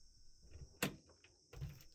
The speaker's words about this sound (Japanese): ちょっと待ってね。今鍵開けるから。